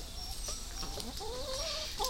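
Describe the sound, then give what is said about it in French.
Hens cluck in a garden, giving a few soft, wavering clucks and murmurs that rise and fall in pitch over a faint, steady background hiss. “Les seuls qui m'appellent, ce sont les poules du jardin.”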